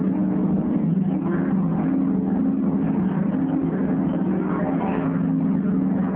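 A boat engine gives a steady, low, rumbling drone at an even loudness throughout, with no change in pitch and no voices.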